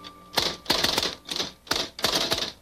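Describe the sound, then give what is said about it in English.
Keys clack as someone types the word snow, a quick rhythmic run of sharp mechanical strikes grouped in short bursts with brief gaps, loud and alone without voices. “I think I'll just type snow on here.”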